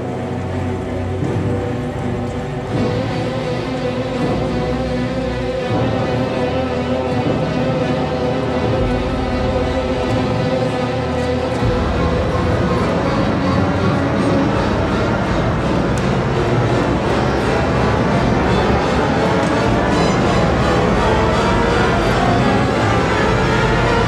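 Orchestra of about 40 musicians climbing from the lowest to the highest notes of their instruments over 24 bars, building a loud, dense, continuous swell of sustained tones that thickens and rises steadily throughout, with no pause.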